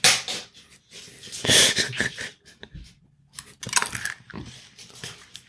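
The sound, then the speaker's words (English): A condom wrapper is torn open and the condom unwrapped, making many crinkly, rustling bursts and sharp tearing crackles in uneven, irregular clusters. “She's unwrapping a condom.”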